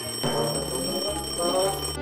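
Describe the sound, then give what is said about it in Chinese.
An alarm clock rings, a continuous, loud metallic jangle that swells slightly in places and carries on for the whole clip without pause. “闹钟也是钟啊，听了钟声就会把你的善性唤醒”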